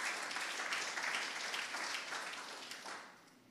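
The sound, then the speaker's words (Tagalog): Applause from a church audience, dense steady clapping that holds loud and then gradually tapers off toward the end. “Come on, palakpakan po natin siya.”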